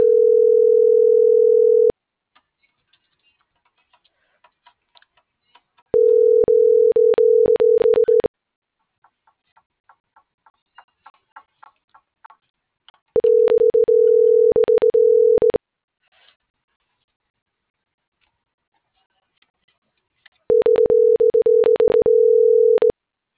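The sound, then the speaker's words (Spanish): A telephone ringback tone repeats while a call goes unanswered: four long, steady, mid-pitched buzzing bursts, evenly spaced with silent gaps, broken only by faint scattered clicks. “No me contesta, Lolito, no me contesta”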